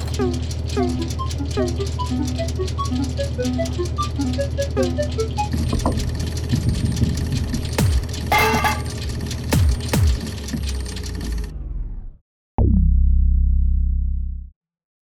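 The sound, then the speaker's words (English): A random number generator machine runs with a dense buzzing, rattling mechanical drone and scattered clanks and clicks. It cuts off abruptly near the end, and a short, steady low hum follows. “So I will now turn on the random number generator. Voila, voila.”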